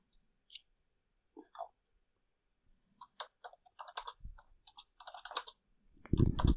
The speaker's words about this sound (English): sorry, y'all can hear my typing.